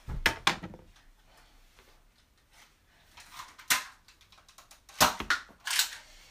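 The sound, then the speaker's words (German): Nerf blaster darts fired at a target from three meters away: a few sharp, snappy pops and clicks spread irregularly over several seconds, with quieter clatter between them and no talking. “Ihr könnt ja selber mal zu Hause versuchen, aus drei Meter Entfernung ein Ziel zu treffen mit einer Nerf.”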